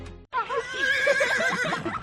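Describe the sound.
A horse at an equestrian riding centre gives one long, loud, quavering whinny that wavers up and down in pitch for nearly two seconds. A brief different sound comes just before it.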